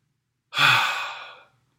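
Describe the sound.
A voice imitates Jesus breathing on his people: a single long, breathy exhale that starts strong and slowly fades over about a second, heard alone.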